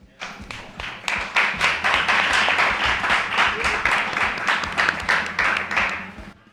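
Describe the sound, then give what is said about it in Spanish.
An audience applauds speakers at the start of a talk on copyright. Distinct individual claps build quickly into many fast, steady claps, holding fairly even before tapering off at the end. “Un aplauso.”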